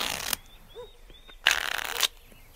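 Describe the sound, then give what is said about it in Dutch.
A deck of playing cards is shuffled in two brisk, rustling bursts of riffling separated by a quieter pause. The second burst is louder and lasts a little longer. “ik heb hier een pak, pak kaarten. En die ga ik nou schudden.”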